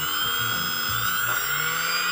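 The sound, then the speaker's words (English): A brushless motor spins under servo-tester control, giving a steady, loud high-pitched whine with a low, shifting rumble beneath it, holding evenly for the whole stretch. “Here you can see I'm controlling the brushless motor with a servo tester.”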